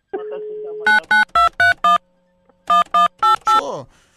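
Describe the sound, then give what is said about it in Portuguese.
A telephone number is dialed on a touch-tone keypad: a short steady tone, then a quick run of five beeps, a pause, and four more loud beeps. “Tá bom, deixa eu ligar pra ele.”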